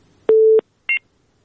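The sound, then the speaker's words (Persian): Telephone busy tone after a dropped call: two electronic beeps, a longer steady low tone followed by a short, higher-pitched beep, then silence. “خب بازم تماس قطع شد.”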